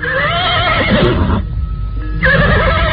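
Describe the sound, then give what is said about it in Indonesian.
A horse neighs loudly in a drawn-out whinny, ridden through village streets, the cry running almost the whole clip with a short dip in the middle before it swells again. “Mereka berkuda menyusuri jalan-jalan di desa Warung. Suatu saat, mereka berhenti di rumah seorang warga desa.”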